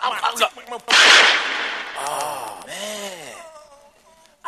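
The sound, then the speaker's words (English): A single sharp gunshot crack rings out, followed by a decaying tail and exclaiming voices. “Oh, man, I shot homeboy. I didn't mean to do that.”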